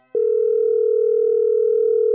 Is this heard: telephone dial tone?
yes